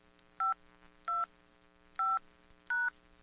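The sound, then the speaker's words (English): Telephone keypad tones dial into voicemail: four short, loud, evenly pitched electronic beeps with pauses between them, over a faint steady hum and no talking. “Let me check my voicemail and see who called me today.”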